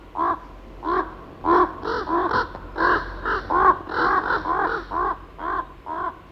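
A raven caws in a long series of many harsh, rasping calls in an uneven rhythm, heard alone with no talk.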